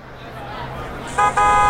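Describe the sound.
A jeepney horn honks twice, a short loud blast followed after a brief gap by a longer sustained one, cutting through a steady background of street noise.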